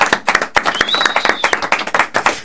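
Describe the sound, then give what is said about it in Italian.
An audience applauds at a live evening show, with many crisp, sharp hand claps in a quick, uneven patter. The clapping is loud and steady for the whole clip. “Io direi prima di tutto un applauso, ci vuole. Sti ragazzi sono bravissimi, no? Facciamoci un applauso.”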